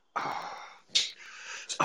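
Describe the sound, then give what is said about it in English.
A voice imitates loud, heavy breathing, mimicking a man pacing back and forth: a few harsh, noisy huffs and breaths, one sharper and louder in the middle, with no other sound around them. “He begins pacing back and forth, breathing loudly, like he's just going,”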